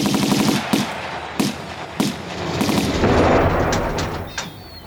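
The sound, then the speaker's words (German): Gunfire from a boat in a radio drama: several sharp, loud cracking shots at irregular intervals, with a rushing, noisy wash between them. “Stoppen Sie den Motor oder wir schießen! Feuer!”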